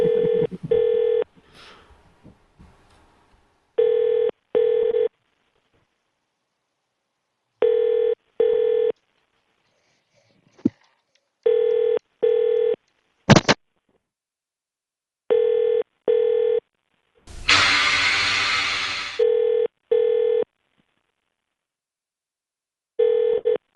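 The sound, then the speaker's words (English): Telephone tones on a hotel phone line: a repeating double-pulse ringing tone about every four seconds with silence between, one short sharp keypad beep midway, and a brief burst of hiss later on. “If you know your guest room number, then dial it now. For example, for room 2, dial 102.”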